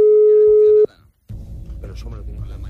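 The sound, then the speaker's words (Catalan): A telephone rings during a live call to a wedding: a single steady tone lasting under a second cuts off abruptly, and then voices talk in the background. “Trucada en directe al casament de l'Alberto Peinado. Jo si fos l'Alberto, no l'agafaria. No agafaria la trucada.”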